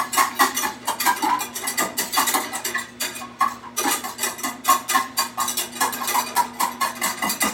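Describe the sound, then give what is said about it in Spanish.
A utensil stirs butter and garlic in a pan over medium-high heat, making many rapid, busy clinks and scrapes against the metal that keep up steadily, with no pauses, through the whole stretch. “Así, a fuego medio alto, vamos a estar mezclando para que la mantequilla no sepa a ajo.”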